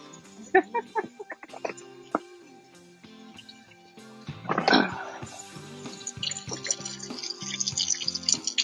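Water is used to wash something: scattered drips and small clinks come first, then a tap runs steadily with continuous splashing through the final seconds.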